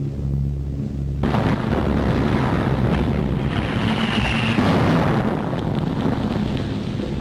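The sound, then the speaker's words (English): Bomb explosion sound effect from a wartime scene: a sudden loud blast about a second in, then a long, dense rumbling roar that holds steady to the end. “That was a bomb.”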